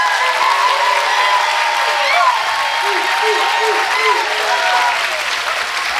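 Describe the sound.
Audience applause welcoming a guest panelist at a live faith discussion panel, with steady, sustained clapping throughout and voices and a few whoops rising over it.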